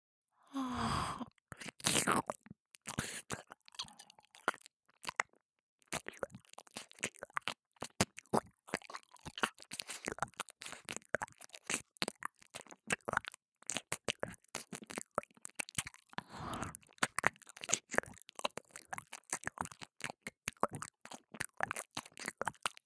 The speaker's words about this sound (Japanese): 君のお耳を舐めるだけだからね。